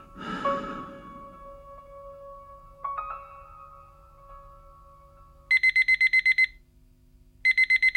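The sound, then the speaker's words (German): An alarm clock rings: after a soft sigh and a quiet steady tone, a rapid burst of high electronic beeps sounds for about a second, pauses briefly, then starts again. “Der Wecker läutet.”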